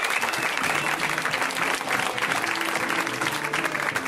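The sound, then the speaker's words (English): Audience applause welcoming a comedian at a stand-up comedy show: loud, dense clapping that holds steady throughout with a faint crowd murmur. “Come on, give it up for Jared.”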